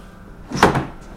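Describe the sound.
A heavy laboratory door at a research centre in Halle opens into a culture room for fungal cultures, making one brief, moderately loud swishing thud midway through, with no voices.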